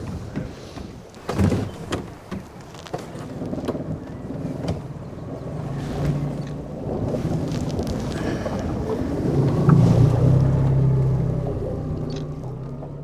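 Boat ride on water with wind: a low engine drone under rumbling gusts buffeting the microphone, with a few thumps early on and the noise swelling louder toward the end.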